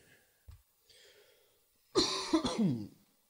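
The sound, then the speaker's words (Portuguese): A bad cough: a faint breath or two, then a short, loud fit of a few rough, harsh coughs bunched together, with no talk. “Eu tô com uma tosse desgraçada, lazarenta.”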